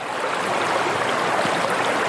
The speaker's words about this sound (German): Wenn man am rauschenden Wasser der historischen Krämerbrücke sitzt, die nackten Füße ins kühlende Wasser getaucht